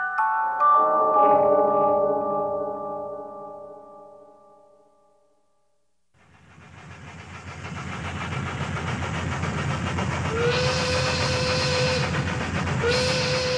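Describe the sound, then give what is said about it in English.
A steam locomotive train from 1886 opens with a sustained harmonic whistle-like tone that fades almost to silence. A rolling rumble of the moving train then builds, with whistle tones sounding over it toward the end. “Summertime 1886. A locomotive winds through the steamy American South, bound for Baltimore, Maryland.”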